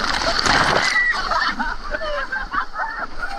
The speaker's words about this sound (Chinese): 一个大浪打过来